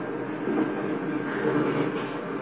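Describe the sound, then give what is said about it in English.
Steady rumbling noise of a crowded passenger train in motion, a continuous dense roar with no clear breaks and a constant loudness throughout. “This train is really crowded, with hardly any room to move.”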